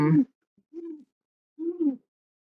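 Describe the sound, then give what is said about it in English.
A pet bird coos a few times: soft, low, rounded calls separated by short silences, with the later call slightly longer and fuller than the earlier ones. “Was your bird cooing just then? Yeah, he's been making noise the whole time.”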